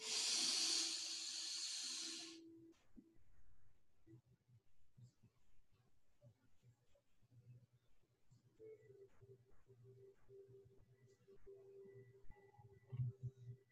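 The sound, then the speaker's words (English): A long nasal inhale during a guided breathing exercise, a loud, airy hiss lasting about two seconds before it cuts off, leaving a very quiet stretch of faint low hum and soft tones. “Breathe in through the nose.”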